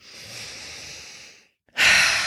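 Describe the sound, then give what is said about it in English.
Deep breaths drawn in through the nose during a relaxation exercise: a long, steady, airy inhale, a short silence, then a second, louder breath, with no talk. “take a few deep breaths in through the nose,”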